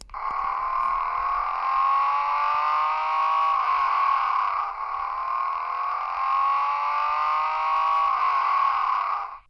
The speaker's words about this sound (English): This is a special Race for Independence keychain, and it has a sound effect.